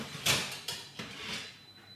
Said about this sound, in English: Okay, it's been 15 minutes and I'm just going to take the bolo pao out of the oven.